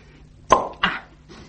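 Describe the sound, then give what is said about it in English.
A bottle of wine being opened: a sharp pop, then a second, softer burst of noise shortly after, both alone and fairly loud against a quiet background. “I'm going to open another bottle of wine.”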